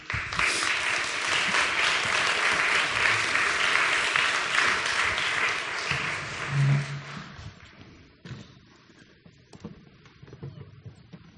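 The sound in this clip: An audience applauding to welcome a speaker to the stage: steady, dense clapping from many hands that holds for several seconds, then thins out and fades to scattered claps.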